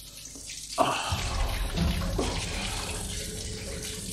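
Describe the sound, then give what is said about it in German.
Water runs steadily from a shower, a continuous broad hiss of falling spray with a brief knock or splash early on. “Ich stehe unter der Dusche.”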